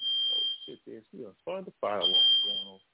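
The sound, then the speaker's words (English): A high, piercing fire alarm sounds as a long steady tone, drops out while a man talks, then returns over his voice. “But let me put this fire alarm out. Hold on.”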